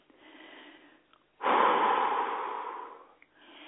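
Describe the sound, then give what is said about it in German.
A deep breath taken during a guided breathing exercise: a soft, airy inhale, then a louder, longer rushing exhale that slowly fades. Another quiet breath begins at the end. “Okay, jetzt fangen wir an. Atme bitte nochmal durch.”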